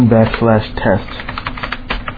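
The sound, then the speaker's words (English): Keys on a computer keyboard clatter in a quick, uneven run of light clicks as text is typed in. A voice is heard briefly at the start. “I'm just going to type in”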